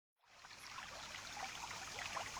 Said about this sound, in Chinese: 耶，林子里竟然有条小溪。